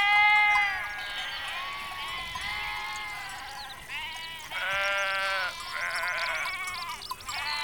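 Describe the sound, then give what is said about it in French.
Lambs bleating among a flock of sheep, many overlapping wavering bleats at varied pitches, some higher and some lower, fairly loud and steady throughout with no talking. “Dans le troupeau, les agneaux suivent leur mère partout en bêlant. Chaque agneau a une voix différente que reconnaît sa maman.”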